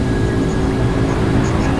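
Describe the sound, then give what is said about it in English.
Loud, steady roar of an airplane engine in a flight simulator video game, a broad continuous rumble with a faint high tone that stays unchanged throughout. “This plane sounds cool! Yeah, it does, doesn't it? Let's see what it sounds like at high speed.”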